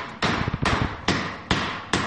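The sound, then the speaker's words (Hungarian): A small hammer strikes an asbestos slate roof piece to break a fragment off, giving five sharp, evenly spaced knocks, each a brief dull impact with a short ring-out. “Török belőle egy kisebb darabot, mert ez túl nagy ahhoz, hogy megnézzük. Kis kalapáccsal”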